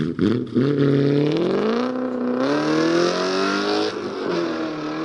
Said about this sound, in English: His getaway of car of choice? Here's a hint. It did not sound like this.